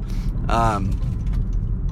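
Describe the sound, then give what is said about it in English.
A car moving through traffic gives a continuous low engine and road rumble, with a brief voice-like sound near the start. “Excuse me, I'm also in traffic, so I gotta be careful I don't hit anybody.”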